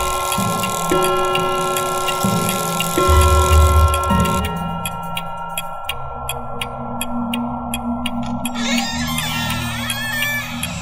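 A clock ticking at three in the morning inside a house: a low tonal drone plays first, then steady, evenly spaced ticks begin after a few seconds and continue to the end over the drone.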